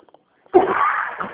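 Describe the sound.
A single cough from a man on a phone call: one abrupt, loud burst that trails into a rough, breathy rasp, brief and alone over the narrow line.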